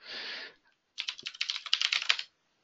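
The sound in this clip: Commands typed on a computer keyboard: a rapid run of many crisp keystrokes lasting over a second, preceded by a short hissing burst.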